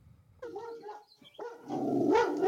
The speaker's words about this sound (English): So normally when Winnie barks, it sounds a lot like this.